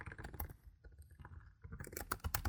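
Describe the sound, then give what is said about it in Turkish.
Keys clatter on a computer keyboard as someone fills in an online form. The taps are faint and sparse at first, then come as a denser, louder run of sharp clicks near the end. “Yazıyorum.”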